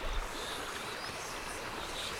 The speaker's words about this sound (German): Küken und Ferkel setzen sich hin und lauschen dem Fluss aufmerksam.